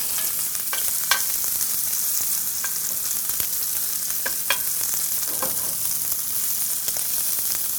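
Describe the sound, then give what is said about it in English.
A ribeye steak sears on sprigs of rosemary in a hot skillet, giving a constant bright sizzle with scattered small pops and crackles throughout. “I'm putting my rosemary down in the skillet. Place the ribeye right on top. And another sprig of rosemary on top of the steak.”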